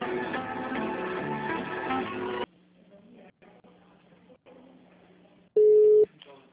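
Telephone line audio while dialing another HR extension: a couple of seconds of tonal hold music, then a near-silent line with faint clicks, then one loud, steady, high beep that cuts off abruptly.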